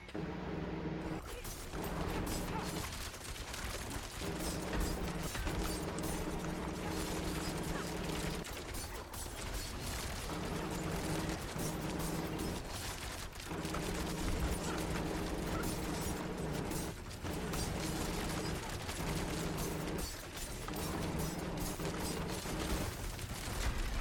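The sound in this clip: Gunfire in a video game: a dense, continuous rattle of rapid shots with mechanical clicking, sustained for the whole stretch with only brief dips.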